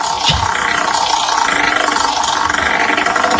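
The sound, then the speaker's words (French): A spinning names wheel in a call-in game gives off a dense, steady rattling clatter that runs loud and unbroken from start to finish, with no voices over it. “on lance la roue des prénoms”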